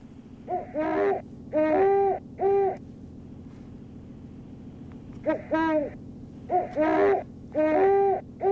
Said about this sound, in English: Well, it wasn't quite that barky. I don't know. It sounded a little smoother or softer than that, maybe just because it was far away. Yeah. Yeah, it's a series of like five or seven hoots like that.